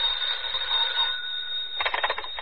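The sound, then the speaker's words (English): A telephone ringing: a continuous high ringing tone holds steady and then breaks into rapid pulsing bursts near the end. “A few minutes after the grandfather clock struck 11, the telephone rang.”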